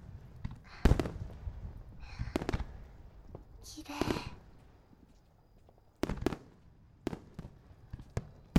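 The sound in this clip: Summer fireworks go off as faint, sharp bangs and pops, irregularly spaced across the stretch, some followed by a brief crackling fizz, with quiet gaps between bursts.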